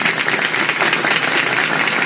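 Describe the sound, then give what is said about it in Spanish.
An audience at a concert claps hands loudly in a thick, continuous wash of applause with no distinct gaps. “A ver, ¿cómo dicen esas palmas?”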